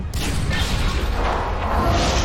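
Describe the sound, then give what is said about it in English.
Heavy crash of a drive core falling inside a ship in a video game, a loud, sustained rumbling boom with whooshing debris noise lasting about two seconds and no talk. “Okay, Legion gets out of the way before the drive core drops on him.”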